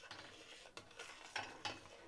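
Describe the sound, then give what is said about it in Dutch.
A utensil stirs a pot of cooling sour cherry mash. The faint, soft scraping carries a few sharper clicks of the spoon against the pot, with no talk. “En handig om het gelijkmatig af te laten koelen is gewoon af en toe een beetje blijven roeren.”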